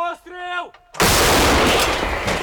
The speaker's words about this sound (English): his unit's munitions feed a weapon twice his age, the D-20 howitzer.